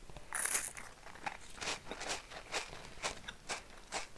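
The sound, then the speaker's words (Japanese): Crisp, faint crunching as Nabisco Ritz crackers are eaten after a meal, a steady series of bites and chews repeating roughly every half second. “今ね食後にリッツクラッカー食べてる”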